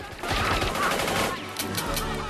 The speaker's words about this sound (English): Use the machine gun! Go!